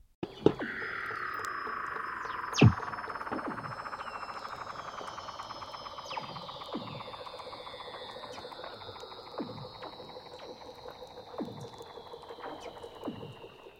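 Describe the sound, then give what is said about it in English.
Weddell seal mothers and pups call out on land in Antarctica, with long, wavering tonal cries and descending sweeping whistles layered over a steady series of short rhythmic pulses, continuing without pause throughout. “It's the vocalization of mothers and baby Weddell seals.”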